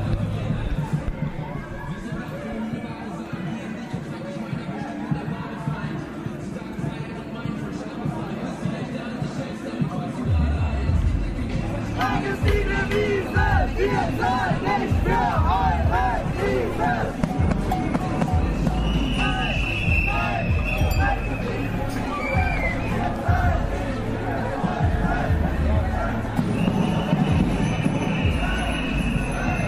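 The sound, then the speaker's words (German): Crowd at a protest demonstration in Leipzig: a dense, continuous din of many voices with percussive thumps running through it. It stays loud for the whole stretch and thickens after the first third. “Wir hören auch ein bisschen, ja, Atmosphäre, um auch nochmal einen kleinen Eindruck zu gewinnen, wie das sich in Leipzig so angehört hat. Spoiler, es klingt nach Demo.”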